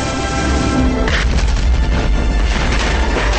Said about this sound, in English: The explosion creates a violent current heading toward the surface of the water.